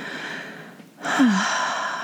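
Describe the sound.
A gentle inhaled breath during a guided meditation, a soft airy intake that swells up about halfway through and holds steady, heard over a quiet, continuous background drone, with no talking.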